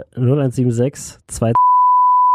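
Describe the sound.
A censor bleep covers a spoken phone number: a loud, steady single-pitched tone cuts in right after a few words of speech and holds unbroken to the end.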